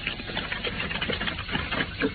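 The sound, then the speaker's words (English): A car engine drones while driving across a moor, a steady, continuous churning rumble with a slightly rattly, uneven texture. It stays at an even level throughout, with no voices. “we soon found ourselves driving across the moor to Baskerville Hall”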